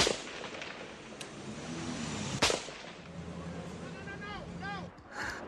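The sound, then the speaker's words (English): Gunfire as Bosnian forces return sniper fire on a main street in New Sarajevo during the siege: one loud, sharp crack stands out among fainter pops, with voices nearby. “A group of civilians has been hit by sniper fire. Two of them are dead. Bosnian forces return fire.”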